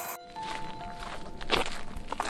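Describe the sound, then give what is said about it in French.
Footsteps walking over broken helmets and scrap metal, a dense run of irregular crunching, scraping steps with occasional hard clanks, steady in loudness and with no voices. “Regardez ça, on marche sur des casques brisés et des bouts de ferraille.”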